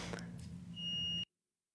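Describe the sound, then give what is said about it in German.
A smoke detector gives one brief, high-pitched electronic beep over a low hum, and then the sound cuts off abruptly into silence. “Mein Rauchmelder piept.”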